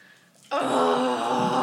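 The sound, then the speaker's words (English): A big, drawn-out vocal groan voiced during a fantasy role-playing game. It starts abruptly after a brief near-silence, then holds loud and steady to the end. “She starts that one off with a big old groan.”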